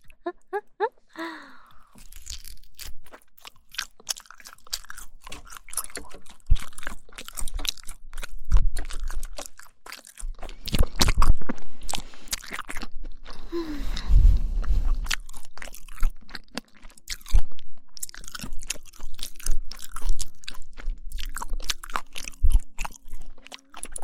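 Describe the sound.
Chewing crunchy starch meat sausage: many crisp bites and crunches repeat unevenly throughout, loud and close, with moist mastication between them.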